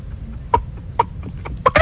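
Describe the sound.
A person's voice imitates a hen clucking, giving a few short, clipped, throaty clucks spaced irregularly and coming quicker toward the end, over a low background hum.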